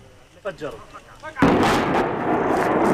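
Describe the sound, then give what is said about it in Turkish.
A house rigged with explosives in the West Bank is demolished. Faint voices come first, then one sudden, loud, deep blast rolls into a long rumble of collapse. “Patlayıcı yerleştirilen ev saniyeler içinde yıkıldı.”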